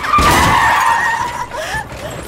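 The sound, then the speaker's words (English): A loud tire skid screeches with a wavering squeal over rough, noisy crashing as a truck crashes into an enormous stone, the screech easing off toward the end. “he crashes the Gyro Express”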